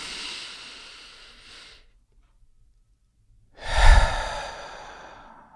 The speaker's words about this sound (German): Ein- oder zweimal tief durch die Nase ein und durch den Mund aus.